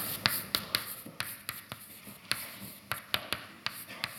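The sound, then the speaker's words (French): Writing on a blackboard during a physics lecture on the quantum many-body problem: many sharp, dry taps and scrapes in an irregular rhythm, fairly faint, with no voice. “Je vais écrire en anglais au tableau.”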